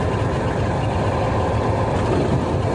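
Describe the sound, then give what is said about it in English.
Steady engine rumble of a vehicle being driven, a continuous low drone with road noise that stays at an even level, with no talk. “If you're wondering, yes, I'm driving.”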